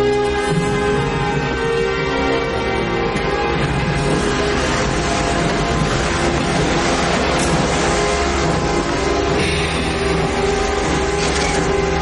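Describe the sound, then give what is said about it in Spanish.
A train starts moving again beside a station platform, giving a loud, steady rumble with a sustained tonal hum that runs unbroken through the whole stretch. “El tren inicia de nuevo su marcha”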